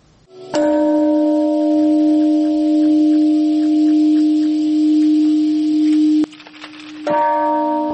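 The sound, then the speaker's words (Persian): Peace bell ringing at the Hiroshima Peace Park on 6 August: a loud struck bell with a long, steady, humming resonance, then a second strike near the end, with no voices. “زنگ های صلح به صدا در آمدند در پارک صلح روز شنبه 6 اوت.”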